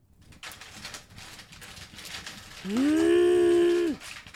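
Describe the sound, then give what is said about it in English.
Rummaging through a cooler of melted ice: a soft rustling scrape, then the cooler opening with a loud, steady tonal creak that lasts about a second before it stops abruptly. “You know what that sound is? That sound is me digging to the bottom of the cooler and opening it up and being pissed because the ice has melted.”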